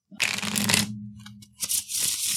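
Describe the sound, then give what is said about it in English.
Playing cards flipped over for an exploration phase on a tabletop game encounter table, heard as two brief papery swishing slaps separated by a short pause, with no talk. “flipping five cards for our exploration phase in this tundroom encounter table, we get a, Queen of Diamonds, Jack of Diamonds, King of Clubs, Five of Spades”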